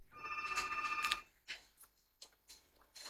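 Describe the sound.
A telephone rings with one trilling burst as a caller joins the line, followed by a few short, faint clicks.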